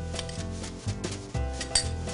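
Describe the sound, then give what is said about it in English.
Seasoned pork, coated in salt and pepper, goes into a pan of warm olive oil for searing, with a few quiet metallic clanks and scrapes against the pan. “So now that we have this nicely coated with the salt and pepper, we can just go ahead and sear it right here in this pan.”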